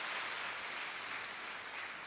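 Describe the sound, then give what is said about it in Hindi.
Quiet, steady applause from an audience welcoming a respected guest speaker to a class on staying happy. It holds an even patter throughout with no voices over it. “हम सभी करतल ध्वनि के साथ स्वागत करते हैं।”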